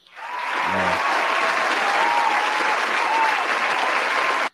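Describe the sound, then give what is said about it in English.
Applause, a full round of clapping that swells in quickly and holds at an even, dense level for about four seconds before cutting off abruptly. “Round of applause for that right there.”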